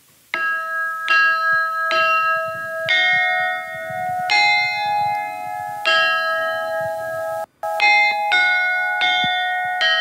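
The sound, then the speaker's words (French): A tune of clear, ringing metallic notes struck one at a time with a small hammer, each sharp attack followed by a sustained bell-like tone. A dozen or so notes, mostly at a steady pace, with a brief gap near the end before the last quicker notes. “Je prends un petit marteau et je vais essayer de vous jouer un petit morceau de musique.”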